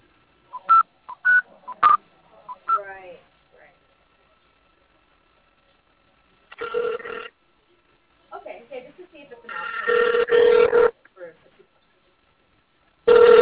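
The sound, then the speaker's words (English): Touch-tone dialing on a telephone as a number is called: a few short beeps early on, then quieter stretches broken by longer bursts of line noise and voice-like sound. “I'm going to call his number for you. Hang on.”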